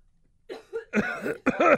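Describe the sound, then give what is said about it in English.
Harsh coughing from a person who has just inhaled spit: a few rough, throaty bursts in quick succession, growing louder and more strained toward the end. “Thank you for covering for me. I just inhaled spit.”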